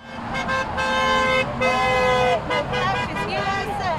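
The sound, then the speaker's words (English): Car horns honk in support of about 30 protesters marching down a county road. Several toots, some short and some held, rise over a busy mix of crowd voices and traffic. “Around 30 protesters are marching down County Road 220 Wednesday, receiving honks of support”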